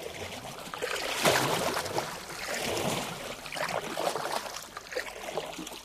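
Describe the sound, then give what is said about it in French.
Paddles pushing a boat through shallow mangrove water, soft watery swishes and splashes that swell in a few slow surges over a continuous wash of water noise. “Nous allons utiliser les pagaies à partir d'ici. Il y a trop peu de fond.”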